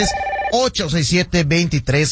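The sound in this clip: A telephone rings briefly with a steady tone as a caller dials into a sports call-in show. A person starts talking right after.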